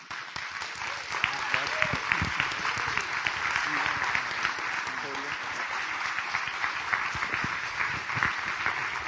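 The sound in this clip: Dense, steady applause from an audience at a Christian speaking event, welcoming the speaker and holding at an even level with many overlapping claps throughout, while a voice briefly surfaces over it.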